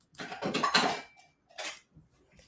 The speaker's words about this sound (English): Let me get a bowl for each of these.